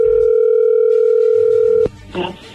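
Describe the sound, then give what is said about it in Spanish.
Steady, loud, unbroken telephone dial tone sounds while a call is being placed, then cuts off abruptly with a sharp click, followed by softer, indistinct line noise. “Vamos a marcarle a Guadalupe.”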